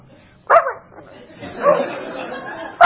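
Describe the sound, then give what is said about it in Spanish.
A dog barks aboard a boat, giving a few sharp yelping barks with a longer, whinier bark between them, loud against an otherwise quiet background. “Ay, ¿me puedes sacar este perro de acá? Qué pesado. ¿Qué hace este perro? Qué molesto.”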